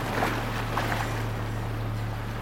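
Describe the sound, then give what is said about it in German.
A small, narrow rowing boat is rowed hard across open water by a person in oilskins, giving a couple of soft splashing strokes over a steady low rumble. “Es war ein kleines, schmales Boot. Darin saß ein Mensch in Ölzeug, der verzweifelt ruderte.”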